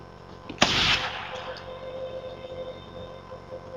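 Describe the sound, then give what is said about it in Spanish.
A silenced gunshot: one sharp, muffled burst that fades over about half a second, leaving a quiet, steady low background. “El silenciador hace del disparo un susurro y la abrazo fuerte hasta que se desvanece.”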